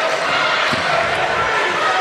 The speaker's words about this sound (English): She's just going to stand there, dribble, and make Rogers try to defend her.